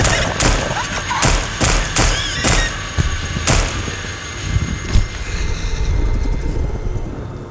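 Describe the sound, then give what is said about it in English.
Pistol shots fire in rapid succession, several sharp, loud cracks spaced roughly half a second apart, then give way to a sustained, noisy low rumble. “I pulled the pistol and shot the creature until it hit the ground.”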